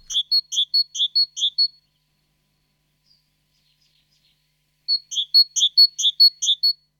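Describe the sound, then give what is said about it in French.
Great tit song: two bursts of rapid, evenly repeated high, clear two-tone notes, separated by a few seconds of silence, with nothing else audible. “Plus présente dans nos jardins, la mésange charbonnière participe aussi au concert.”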